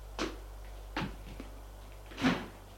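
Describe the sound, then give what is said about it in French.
A morgue's wall door being opened: a few short clunks and scrapes with no talk, the last one louder and longer than the others. “C'est la morgue, avec des portes dans le mur. Il va ouvrir une porte,”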